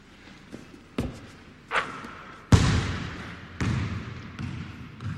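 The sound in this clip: A basketball bounces and is shot, heard as a few hollow thuds spaced irregularly, with one sharper, louder bang in the middle, followed by quieter rebounds.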